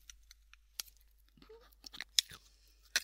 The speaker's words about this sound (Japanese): 食べてる食べてる。